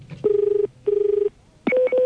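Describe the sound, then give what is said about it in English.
A telephone ringback tone sounds on a call to a small family boat hire company, with two long, steady buzzing rings separated by a short gap, then a brief, different tonal sound at the end. “So let's give them a call. We're off to Mururoa. Just amuse yourselves while I dial people. And here we go.”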